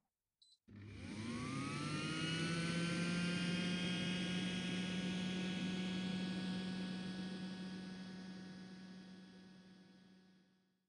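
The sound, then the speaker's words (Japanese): Steady electric hum of a seed-sowing robot at work, beginning abruptly after a brief click and holding a smooth tonal drone with layered overtones, then slowly fading toward the end. “それじゃあ種をまきましょうか。と言っても種まきはロボットにお任せなんですけどね。”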